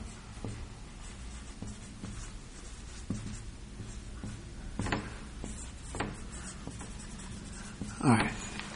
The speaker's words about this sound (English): I'm going to draw this picture up here only for clarification.